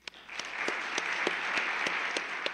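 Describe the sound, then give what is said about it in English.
Audience applause welcomes a professor arriving to give a physics lecture: dense, steady clapping from a crowd, loud and sustained throughout without pause. “So let's welcome Professor Tucholsky.”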